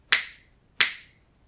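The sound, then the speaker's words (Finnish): Two crisp finger snaps ring out alone, evenly spaced, each a sharp bright click that decays quickly into silence. “Eli kun me kuunnellaan sitä ääntä, jos mä napsautan sormia, niin mitä jää jäljelle, kun se ääni on kadonnut?”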